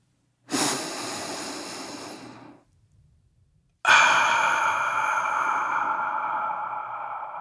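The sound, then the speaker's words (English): A deep breath taken alone: a long airy inhale of about two seconds, a brief silent pause, then a longer, slowly fading exhale, both loud and breathy. “And now, if you're ready, let's take a deep breath.”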